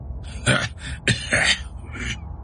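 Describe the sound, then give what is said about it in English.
A badly injured man coughs and clears his throat in a few rough, raspy bursts separated by short pauses, each harsh and breathy, with no other voices present. “He coughed.”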